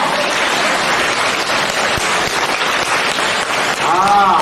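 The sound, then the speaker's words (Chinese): An audience applauds at a spoken gathering with loud, steady, rain-like clapping. A voice begins speaking over it at the very end. “鼓掌。”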